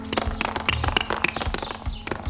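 Rapid footsteps of people racing each other on foot, quick overlapping taps and thuds that patter irregularly and loudly throughout, with no clear pauses.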